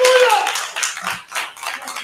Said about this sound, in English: give him a hand clap there.